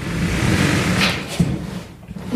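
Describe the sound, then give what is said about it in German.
A large locker door is opened, giving a short dull thump with a faint rattle partway through over a steady background hiss. “Dann würde ich sagen, gehen wir, gehen wir rüber an den Spind. Öffnen den Spind.”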